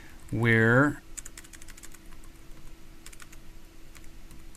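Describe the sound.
Computer keyboard typing as a line of JavaScript console-log code is written into a Gulp task function: many quick, light, irregular key clicks in a steady stream, following a short voiced sound at the start.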